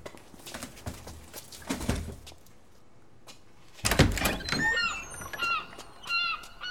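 A door opens in a lighthouse scene in a radio drama: a sharp burst of handling noise, followed by a few high, squeaky creaks and thuds.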